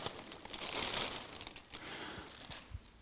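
Paper crinkling as a gift is unwrapped, a faint, crisp rustle that swells early and then continues in irregular bursts of crackle.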